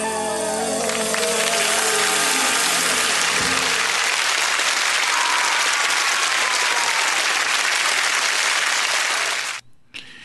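Applause erupts at the end of a song as the last music notes fade. Steady, loud clapping from an audience carries on for about nine seconds before cutting off abruptly.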